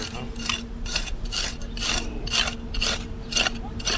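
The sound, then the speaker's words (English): Archaeology dig tools scraping against rocks and hard objects outside a historic house, with many rhythmic, rasping strokes repeating at a steady pace over a constant low background. “That's the sound of scraping against rocks or other hard objects. It could be heard outside Hickson House this week as an archaeology team from UWL digs to find historical artifacts.”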